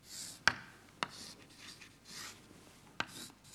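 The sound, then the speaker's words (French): Links of a network diagram drawn by hand make faint scratchy pen strokes, with three sharp taps where the pen meets the surface. “J'essaye de les dessiner. Et puis les liens qui ont bougé, je les rajoute comme ça.”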